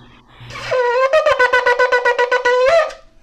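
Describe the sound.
Shofar sounding the trua on a ram's-horn trumpet: a loud, bright, buzzy horn tone broken into many rapid staccato blasts, opening and closing on a briefly held note.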